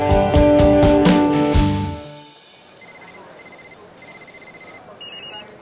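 Telephones ring in a residential building during a commotion, thin high electronic tones repeating in short bursts after a loud musical passage fades out.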